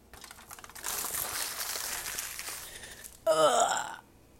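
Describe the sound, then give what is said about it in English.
Brussels sprouts shaken off crinkling aluminum foil make a steady, scratchy rustle that swells and continues for a few seconds without speech. “scritching and crunkling, uh, that is me taking some, shaking out the uh, Brussels sprouts off the aluminum foil.”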